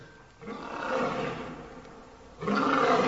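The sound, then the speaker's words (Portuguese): A lion roars in a deep, rough, sustained growl that swells and eases over a couple of seconds, then a louder second roar breaks in at the end, with no talking. “Tem um leão aí para o pessoal tremer em casa?”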